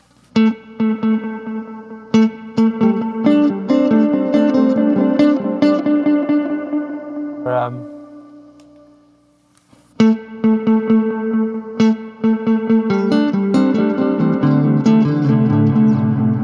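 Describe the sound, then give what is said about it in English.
A multi-head echo unit in the style of the old Benson Echo Rec repeats loud, bright plucked notes in layered echoes, fading almost to silence midway before a new burst of echoing notes starts. “is the old Benson Echo Rec kind of sound”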